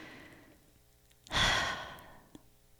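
One slow, deep breath taken while relaxing, a soft airy rush that swells quickly and then fades over about half a second in an otherwise quiet moment, followed by a faint click.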